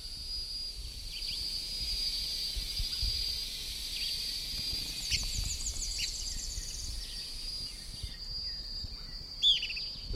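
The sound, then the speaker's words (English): Birds calling against a constant high insect drone and hiss, with a few faint chirps midway and one clearer, brighter call near the end. “Both birds present.”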